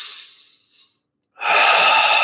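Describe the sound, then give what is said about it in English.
Deep breathing, with one airy breath fading out, a short stretch of silence, then a loud, steady breath of rushing air. No one speaks. “I'm going to take a deep breath, three deep breaths.”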